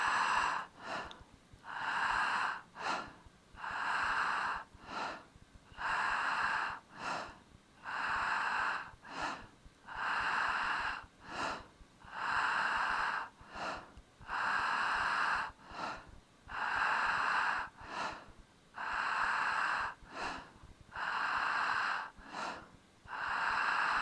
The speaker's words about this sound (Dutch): Begin met de 100 ademhalingen van transformatie en vreugde. Adem in, diep in je buik.